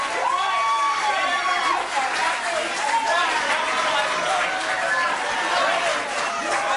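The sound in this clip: A crowd at a healthcare town hall erupts in booing and cheering, a dense, continuous wall of raised voices and shouts that stays loud throughout.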